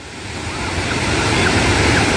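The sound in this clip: Surf washes onto a sandy Gaza beach in a continuous rushing roar that slowly builds in loudness, with some wind noise buffeting the microphone.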